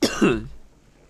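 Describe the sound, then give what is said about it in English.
A short cough, two quick harsh bursts close together that are fairly loud and then trail off into quiet. “And now the last cough.”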